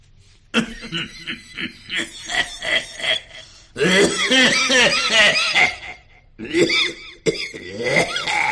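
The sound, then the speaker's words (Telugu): Voiced imitation of an old man coughing on a bus: a quick run of rasping coughs, then a long, strained fit and a few more harsh bursts. “దగ్గుతున్నాడు. పక్కన విద్యార్థి, తాతగారు మీరు బాగా దగ్గుతున్నట్టున్నారు”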